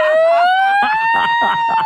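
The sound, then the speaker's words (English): A voice imitates a broken ambulance siren with a loud wailing tone that rises slowly and then holds steady, while someone talks over it. “has your siren ever broken and you've had to have your passenger hang out the window and go,”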